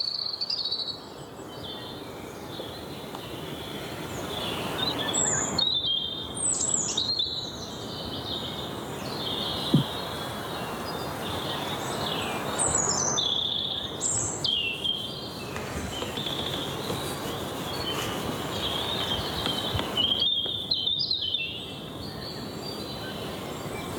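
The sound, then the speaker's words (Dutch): A European robin sings in short, thin, high-pitched phrases that come in a few separate bursts over a constant chirring insect background. “Ik dacht even tjiftjaf te horen, maar daar is het nog te vroeg voor. Als een stukje roodborst.”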